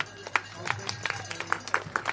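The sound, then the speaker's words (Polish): Scattered applause for the second-place finisher of a 500 km race: irregular, fairly faint hand claps from a few people, sounding as separate sharp pops rather than a dense ovation. “Wielkie brawa.”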